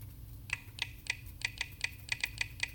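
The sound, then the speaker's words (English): A password being typed on a computer keyboard: a steady run of crisp, even keystrokes, faint and ticking, over a low background hum with no talk. “Okay, I'm on the password field now by default, so I'm actually going to type in my password for my Apple ID.”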